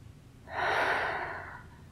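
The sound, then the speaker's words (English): A single deep breath drawn in during a guided relaxation exercise, a soft, airy inhale that swells quickly, holds for about a second, then fades gradually. “And now bring your right hand back to your sternum. Take a deep breath.”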